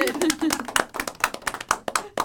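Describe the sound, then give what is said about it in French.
Many hand claps ring out from an audience at a neighbourhood health event, a brisk run of sharp, uneven claps with voices talking and calling out over them. “on s'applaudit”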